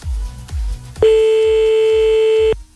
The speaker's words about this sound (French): on y va, on appelle maintenant